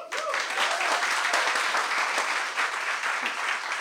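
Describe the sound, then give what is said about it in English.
Audience applause, a dense, steady patter of many hands clapping at an even volume throughout, with no voices standing out above it. “Please help me make some noise for Douglas.”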